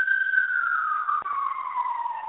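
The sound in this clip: A guest's car sounds as a loud, steady whine heard alone, sliding gradually lower in pitch.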